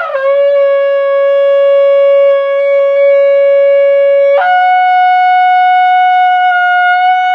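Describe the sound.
A long, loud tekiah gedolah blast on a shofar: one steady, sustained horn tone that jumps abruptly higher partway through and holds there to the end.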